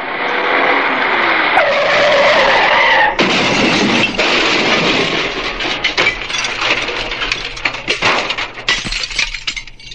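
Tires screech as a car skids while driven fast. The sound is loud and sustained, with a harsh tone that shifts and pulses throughout.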